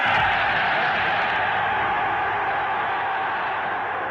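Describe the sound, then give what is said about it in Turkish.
Archival stadium crowd applauding Hitler's speech at the Berlin Olympic Stadium, a dense, steady roar of clapping and crowd noise that sounds muffled and narrow, holding at an even, loud level throughout. “Hitler'in Berlin Olimpiyat Stadı'ndaki konuşmasını izleyiciler ayakta alkışlamıştı. Konuşması coşkulu tezahüratlarla kesilen Nazi lideriyle tanışmak pek çok sporcunun hayaliydi.”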